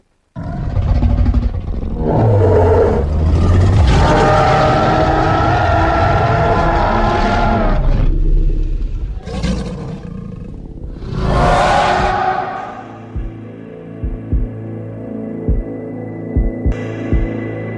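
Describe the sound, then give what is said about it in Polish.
A reconstructed dinosaur call, modelled on modern crocodiles, booms out as a deep, throbbing rumble like a growl from inside a can: one long loud burst, then two shorter swells, fading into quieter low crackles. “można bezpiecznie założyć, że dinozaury brzmiały podobnie jak dzisiejsze krokodyle. Czyli wydawały z siebie coś, co przypomina warkot wydobywający się z puszki. No to posłuchajmy jeszcze raz.”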